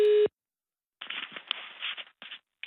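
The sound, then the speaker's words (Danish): Telephone tones during a call transfer, opening with a brief steady tone, then a pause and a few crackly, band-limited line sounds in short bursts. “Du stilles nu om til kontaktcenteret.”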